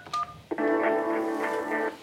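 Telephone dialing to reach a fake tech-support scam line after a computer freeze: a brief electronic beep, then a sustained buzzy tone pulsing in a few regular beats before cutting off.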